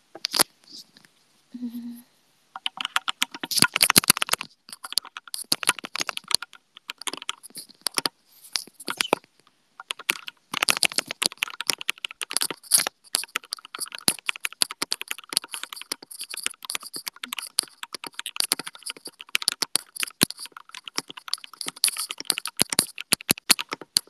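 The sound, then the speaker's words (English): Rapid typing on a computer keyboard during a typing-speed test: many quick, crisp key clicks in irregular bursts, with a short pause partway through before the clatter resumes. “Let's see how many words per minute I can type right now.”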